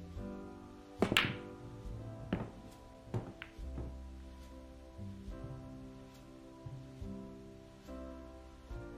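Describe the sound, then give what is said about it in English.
Billiard balls clack on a pool break shot: a tight burst of hard, bright clicks, then a few scattered knocks of balls colliding, over a low, steady tonal hum. “Of course, the eldest goes first. All right, that means you two can break.”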